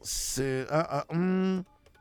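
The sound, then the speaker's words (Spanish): Telephone dialing tones ring out as a number is dialed again, a few short buzzing tones and then one longer tone, loud and clear after a brief opening hiss. “Seguimos marcando.”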